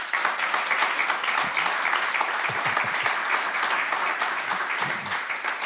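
Audience applause: dense, steady clapping from many hands that fills the whole stretch at an even, lively level.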